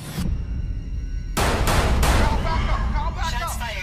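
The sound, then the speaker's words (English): Gunshots from a film trailer crack out as three sharp, loud blasts in quick succession, followed by a voice speaking. “Shots fired.”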